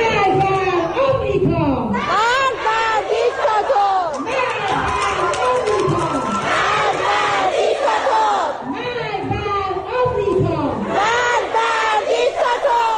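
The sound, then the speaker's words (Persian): A large group of school students chants protest slogans together in unison. Many loud voices shout rhythmic, repeated phrases that carry on steadily for the whole stretch. “بله این صدای دهه 80ای ماست که بلدن شعارهای خودشونو بدن.”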